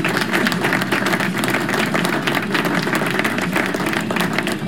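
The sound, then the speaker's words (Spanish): Crowd applause on a metal music program, a thick, continuous wash of clapping that stays level and unbroken for nearly five seconds, with no voices on top. “así que vamos a dar un aplauso.”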